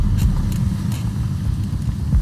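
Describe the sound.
A car being driven toward a house in a small town, heard as a steady low rumble that stays continuous and even throughout, with no voices.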